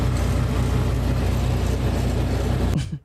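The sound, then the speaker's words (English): Steady engine and road drone from a car driving home in Mesa, a continuous low rumbling hum with a faint hiss on top that holds even throughout, then cuts off abruptly near the end. “And this is just me driving home here in the Mesa.”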